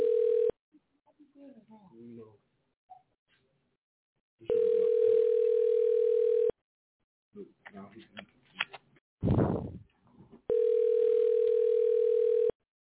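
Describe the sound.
A telephone rings back while a call is placed again after a hang-up. The steady, buzzing ring tone is heard as a short tail, then two full rings of about two seconds each, with faint handling noises and a brief louder burst in the gaps.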